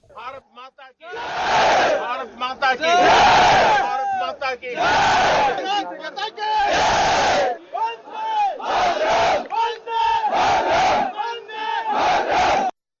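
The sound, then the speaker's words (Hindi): A crowd chants the slogan "Bharat Mata ki Jai" to raise soldiers' spirits, with many loud, repeated voiced bursts in a regular chant rhythm separated by short pauses. “उन्हां ने जवानों का जोश वधाउण लई भारत माता की जय दे नारे भी लाए।”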